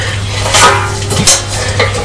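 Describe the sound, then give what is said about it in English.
A lid is put onto a tin, giving a few brief metallic clinks and scrapes, short and fairly loud, with no voices. “Right, the lid's going on the tin now.”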